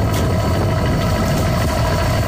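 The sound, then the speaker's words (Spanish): A boat's engine rumbles as the vessel leaves the port of Fisterra at night, a loud, steady low drone with a constant throb and no pauses or voices. “Así soa o motor dun barco sair do porto de Fisterra.”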